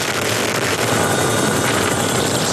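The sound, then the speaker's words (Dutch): A Dutch Chinook helicopter fighting a large wildfire in Belgium gives a continuous, loud, broad rotor roar with a fast steady chop that holds evenly throughout. “Dit is het geluid van de Nederlandse Chinook-helikopter die helpt bij het blussen van de grootste natuurbrand van de afgelopen 100 jaar in België.”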